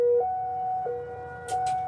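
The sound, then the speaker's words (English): A Cold War era civil defense siren in Hawaii sounding during its monthly test: a steady, sustained tone that holds level with slight shifts in pitch, joined by two brief noisy bursts near the end. “Actually, every month we have a Cold War era siren that blares.”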